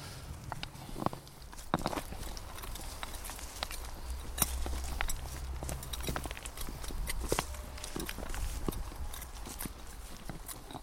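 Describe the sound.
Footsteps walk into a forest in a Swiss mining area, where the ground is strewn with flint: many irregular crunching steps over a steady low rumble, with no talk.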